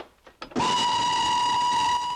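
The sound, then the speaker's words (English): A train whistle gives one long, steady, shrill tone held for about a second and a half. A few faint knocks come just before it. The setting is a first-class compartment of a train. “Sam sits in a first-class compartment of a train, checking his watch.”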